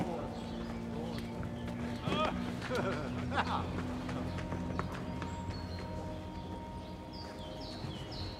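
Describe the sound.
Horse hooves clip-clopping in a steady, even rhythm, mixed with sustained tonal background sound.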